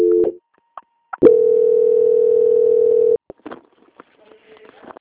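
Telephone line tones during a bank call transfer: a short steady tone, a break, then a long unbroken mid-pitched tone lasting about two seconds. It cuts off into silence with scattered clicks and faint, brief sounds.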